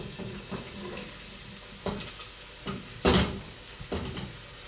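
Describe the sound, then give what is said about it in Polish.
Stirring and scraping in a frying pan as onion is added to olive oil and pressed garlic for chili con carne, with a few clattering bursts over a soft, steady sizzle. “To kwestia czosnku już za mną. Teraz dosypię cebulę.”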